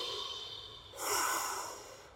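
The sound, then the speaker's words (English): A person taking a breath: a soft airy hiss that swells into one fuller inhale midway through, then slowly fades, with no talking. “Right now, take a breath.”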